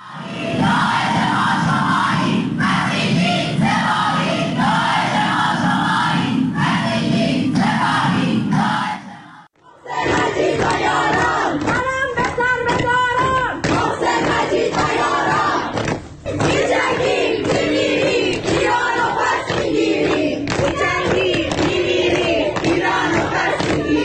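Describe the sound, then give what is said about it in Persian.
Students protesting at the art faculty of Soore University in Tehran chant loudly in unison, a dense, continuous crowd roar broken by one short pause near the middle before the chanting resumes with strong rhythmic emphasis. “این بخشی از اعتراضات دانشجویی در دانشکده هنر دانشگاه سوره”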